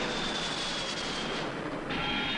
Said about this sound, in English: We're at the Las Vegas airport, and there's not a single slot machine.